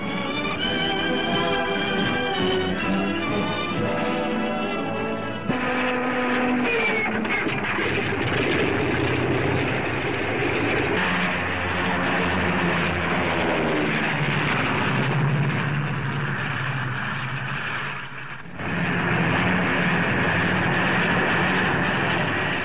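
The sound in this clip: Engines of P-40 fighter planes run on a World War II airfield in Italy as mechanics make final checks, giving a loud, continuous droning roar that holds steady throughout with only slight swells.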